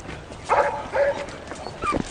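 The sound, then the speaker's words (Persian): A dog gives a few short, yipping barks with brief pauses between them, heard alone without talk. “سگ چیزی رو حس کرده، برو دنبالش.”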